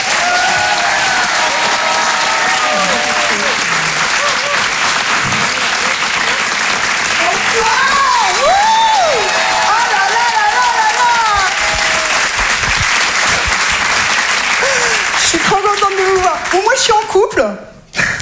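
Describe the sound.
Audience applause greets a comedian at a live stand-up show at the Grand Point Virgule, a dense, steady roar of clapping with a few cheering voices rising within it, running loud throughout before cutting off abruptly at the end.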